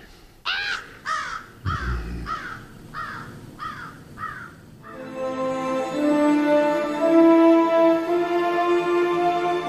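Ravens caw in a quick series of harsh, rasping calls over the first few seconds, loud and alone, then give way to a sustained tonal drone with layered, music-like harmonics.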